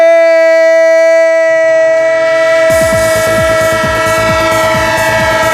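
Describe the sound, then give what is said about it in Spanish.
Sustained, chord-like train horn blast used as a sound effect, joined after a few seconds by a rapid, rhythmic clatter of wheels rolling over rail joints, both loud throughout. “¡El tren de Radio Estadio! El tren de Onda Cero, el tren, como no, del fútbol.”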